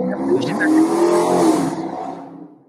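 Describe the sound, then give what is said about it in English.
A motorcycle revs hard while drag racing past an apartment, a sustained rough engine roar that swells and then fades away. “Someone's drag racing. That was a motorcycle. That was a motorcycle like next to my apartment.”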